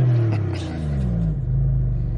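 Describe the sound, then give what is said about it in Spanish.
A car engine revs as the accelerator is pressed, the growl sliding down in pitch before settling into a loud, low, steady rumble. “A ver, písalo. Mikkel pisa el acelerador varias veces más.”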